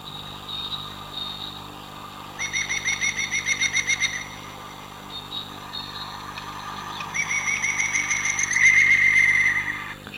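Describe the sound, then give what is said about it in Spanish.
A woodpecker gives its laughing call: two loud series of rapid, ringing repeated notes, the second longer and rising in strength, with a few softer calls between them and no talk. “Esa risotada como de un loco, efectivamente, es la risa, perdón, o el canto de un pájaro carpintero”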